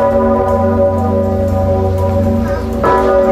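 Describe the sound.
A large, 500-year-old church bell rings, giving a loud, sustained metallic drone of many layered overtones that holds steady throughout with little fading.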